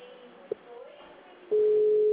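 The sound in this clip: Telephone line to an operator ringing with no answer: after some faint low sounds, a loud, steady single-pitch tone starts partway through and holds unbroken to the end.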